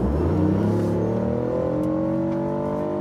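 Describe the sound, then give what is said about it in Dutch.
Engine of a hybrid BMW i8 Roadster with a 1.5-litre turbocharged three-cylinder, heard alone as a steady, loud drone whose layered tones climb slowly in pitch under acceleration. “we sturen Meinert de weg op met de hybride BMW i8 Roadster.”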